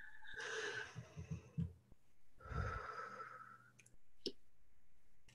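Someone takes a deep breath on cue: a long, quiet, airy inhale, then a slow, breathy exhale, followed by a few soft clicks.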